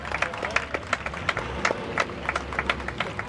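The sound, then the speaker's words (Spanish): Scattered applause at a Carmelite brotherhood ceremony honoring the Virgen del Carmen: uneven individual claps that rise and fall irregularly, fairly faint overall. “los vivas a la Santísima Virgen del Carmen y los aplausos”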